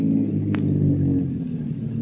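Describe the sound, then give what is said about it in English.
Car engine rumbling on a little-traveled highway as the vehicle rounds a curve and slows up, a steady low drone with a faint higher whine and no voices. “A car comes around a curve. Slows up.”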